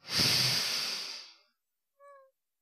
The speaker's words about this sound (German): Noch einmal tief ein. Loslassen. Noch einmal tief ein.